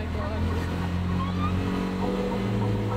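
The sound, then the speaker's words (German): A tuk-tuk engine runs again after a restart, its gearshift broken so only first gear works, giving a steady, rough low drone with throbbing harmonics that holds throughout without pause. “Endlich! Der Motor läuft wieder.”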